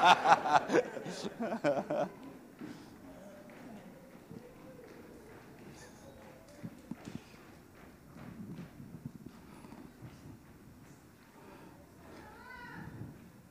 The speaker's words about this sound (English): We'll just wait for the herd to come through.